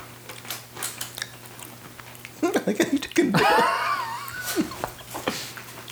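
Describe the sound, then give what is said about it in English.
Crisp crunching bites into a crunchy cinnamon snack, a run of short dry snaps with a louder voiced sound in the middle and more crunching afterward. “It's got a little bit of a snap to it. A little bit of a snap. Every bite's a new snap.”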